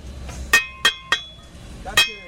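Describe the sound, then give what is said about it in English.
Workers hammer bricks into a stadium walkway: four sharp, ringing strikes, three close together and then one after a short pause, each with a bright metallic clink over a quiet background. “Workers are hammering bricks into a walkway at the stadium, rushing to put the finishing touches in place.”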